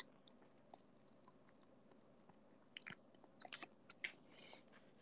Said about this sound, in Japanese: うなぎ食べれなくて悔しいので、ハンバーグ食べます。